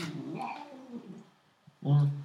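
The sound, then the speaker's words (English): A cat gives one loud, tonal meow near the end, after a quieter stretch with voices. “Silence, cat.”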